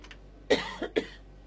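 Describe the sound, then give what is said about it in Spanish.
Short, sharp coughs from a person in the middle of speaking, two strong bursts with a softer one between them, alone and without talk over them. “Más hablo y más tos me agarra”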